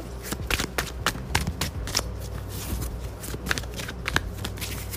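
Papery flicks and riffles of playing cards being handled as one is drawn from a deck, many quick soft snaps in an uneven rhythm, fairly quiet, with no talk.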